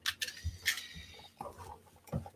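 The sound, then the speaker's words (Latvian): Plastic film is torn and pulled off a new VooPoo Drag S vape device. Several faint, short crackly bursts of crinkling and ripping come with brief quiet gaps between them, and no one talks. “ņemam plēvi taisam, raujam vaļā”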